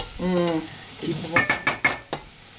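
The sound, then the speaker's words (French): Butter melts and sizzles in a pan, heard as several short crackling, scraping bursts from stirring, with a brief voiced sound at the start. “Là, il y a du beurre qui fond, là.”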